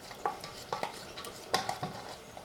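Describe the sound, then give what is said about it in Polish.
A spoon clinks and scrapes as small plain natural yogurt is spooned into a small bowl for a chicken kebab sauce, with a few sharp taps among softer scraping, all faint. “Jogurt przekładam sobie do małej miseczki.”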